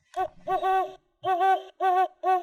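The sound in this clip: A great horned owl hoots in a series of deep, resonant hoots, several in a row separated by short pauses, with no talk over them.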